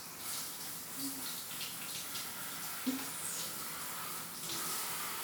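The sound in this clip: Water runs steadily during rinsing, a faint, continuous hiss with no clear breaks.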